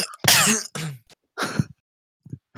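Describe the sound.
Harsh coughing and throat-clearing: a few rough, noisy bursts separated by short silences, followed by a couple of softer, shorter sounds. No speech is heard.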